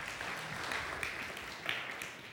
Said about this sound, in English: Thanks for clapping. You don't even know me yet.